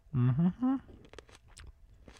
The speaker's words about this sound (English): I am no tomato judge, but I'm going to taste one here and see if it's sweet.